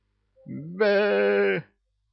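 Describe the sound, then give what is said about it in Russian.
A ram bleats as it is kicked out of a room: a single drawn-out, nasal bleat that jumps up in pitch partway through, then holds strong before cutting off. “Кевин подтащил барана к шелковому пологу и смачным пинком ноги под зад выпроводил его из комнаты отдыха.”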